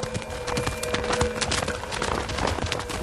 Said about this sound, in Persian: اسب را کجا می بری؟ بدون مرکب نمی توانم خود را به کوفه برسانم.